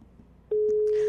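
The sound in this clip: A telephone ringing tone, heard by the caller on an outgoing call, sets in after a brief quiet as a single steady, mid-pitched tone that holds loudly to the end.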